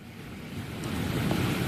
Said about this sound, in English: in Gulf Shores, Alabama, where the wind gusts have reached 56 miles per hour